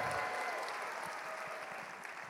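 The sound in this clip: An audience applauds to welcome a woman on stage, a dense, steady wash of clapping that fades slightly over its length with no clear voices.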